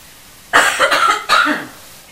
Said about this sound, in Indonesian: Batuk biasa ya.